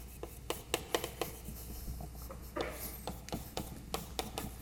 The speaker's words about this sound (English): I'm just writing out sort of what I explained there in words.